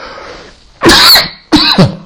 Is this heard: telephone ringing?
no